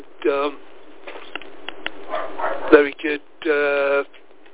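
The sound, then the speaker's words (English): A dog barks at a campsite, with a few drawn-out, tonal barks at the start and again near the end, and a voice talking in between. “so apologies for the dog barking.”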